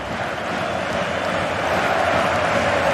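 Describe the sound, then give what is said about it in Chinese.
Crowd roar from Ipswich Town fans cheering at Portman Road stadium late in a football match: a broad, steady wash of massed voices, sustained and even for the whole stretch. “伊普斯维奇的球迷已经在波特曼路球场开始欢呼了。”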